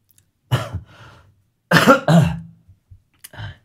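A person with an ongoing cough coughs several times: harsh, throaty bursts in short clusters with pauses between them, fairly loud and with no speech.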